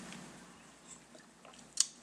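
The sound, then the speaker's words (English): Faint swallowing of a sip of purple Powerade Zero sports drink: soft wet throat and mouth noises, then one brief sharp click near the end. No one talks. “I love hearing liquid go down your throat.”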